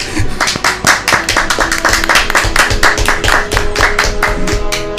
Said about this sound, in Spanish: ¡Oh, un aplauso!